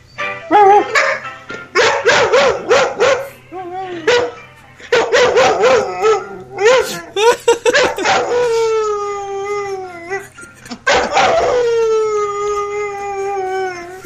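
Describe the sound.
A pet dog howls, yips and barks along to music in several long bursts of wavering, pitched howls, with drawn-out sliding howls toward the end.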